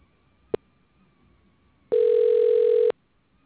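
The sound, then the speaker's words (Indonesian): Dialing an extension on a hospital's automated telephone line: a sharp click, then a pause and a single loud, steady, mid-pitched tone held for about a second before it stops abruptly. “Sila dial nomor sambungan yang dikehendaki.”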